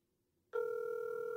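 A telephone rings on an unanswered call. The ring tone starts abruptly after a brief silence and then holds at a steady, even pitch to the end.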